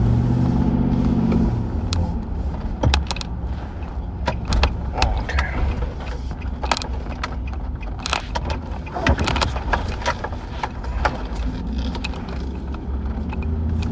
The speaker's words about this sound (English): Just hear me driving.